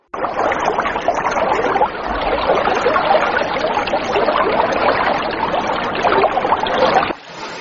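Paddle strokes of a small wooden boat moving through water: a steady, splashing wash that runs for about seven seconds, then drops off abruptly to a quieter tail.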